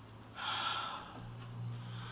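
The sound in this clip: A single deep breath drawn in, a soft, breathy rush of air that swells and then eases into a quieter, lingering low hum, with no voices.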